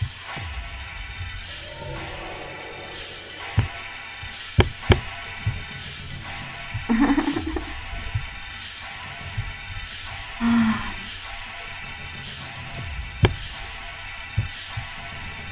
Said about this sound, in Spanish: ¿Cómo quiero a mis vecinos? Hijos de su madre, están rodando canicas.